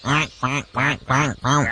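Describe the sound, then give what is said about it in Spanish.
Ducks quack on a small ranch pond: five loud, raspy, evenly spaced quacks in a steady rhythm. “Y en la lagunita del rancho los patos andaban felices, nadando sin deberla ni temerla.”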